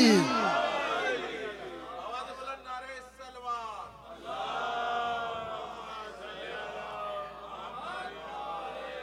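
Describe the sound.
A large crowd shouts together in answer to the Nara-e-Haidari chant during a speech, a loud, surging roar of many voices that swells at the start, dips briefly, then rises again and holds.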